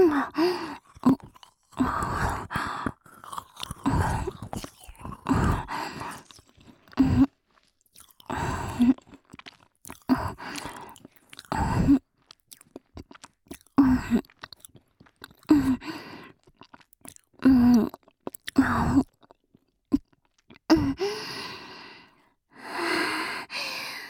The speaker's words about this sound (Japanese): それならやっぱり私が食べちゃおうと。